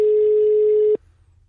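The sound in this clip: A single steady busy-signal tone sounds on a telephone line where the called user is engaged, holding one mid pitch for about a second before cutting off abruptly into near silence.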